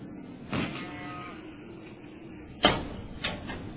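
A door being opened: a soft scrape, then a sharp latch click and a brief rattle, all fairly faint.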